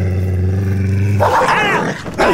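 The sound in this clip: A dog growls and attacks, starting with a low, steady rumbling growl that breaks into loud, harsh snarls with rising and falling yelping tones.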